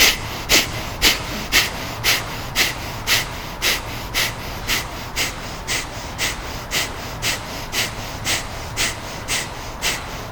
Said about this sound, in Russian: И начинаем цикл капалабхати, агнисар крия. Сейчас активно работаем, по 20 раз дышим.